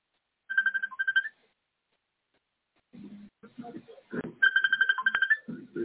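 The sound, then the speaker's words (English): A telephone rings with an electronic warbling trill in two short bursts, then people talk, and another burst of ringing cuts in over their voices. “Somebody answer the phone.”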